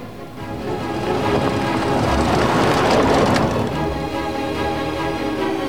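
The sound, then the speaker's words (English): A car drives up a dry, dusty dirt track, giving a continuous broad rumble and rush of noise that swells toward the middle and stays loud throughout. “He wipes his brow as his car sweeps onwards through the dry, dusty landscape. He drives up a dirt track towards the monastery.”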